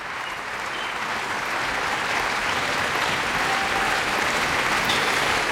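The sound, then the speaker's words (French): An audience applauds after a Bach piano recital ending with the Partita No. 2 in C minor, BWV 826, at La Roque d'Anthéron in August 2021. The clapping is dense and continuous, swelling slightly as it goes, with no voices. “Et vous l'entendez, face à l'enthousiasme du public, Yuliana avait plus d'un bis dans sa poche pour les festivaliers gourmands de la Roque d'Anteron”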